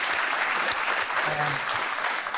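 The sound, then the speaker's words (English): A studio audience applauds in a welcome: dense, even clapping that stays loud from start to finish without a break. “You might give yourselves a hand just to get welcome.”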